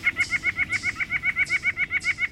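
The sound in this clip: White-breasted nuthatch calling in a rapid, even series of many loud, nasal, honking notes, each at the same pitch, over a low background rumble.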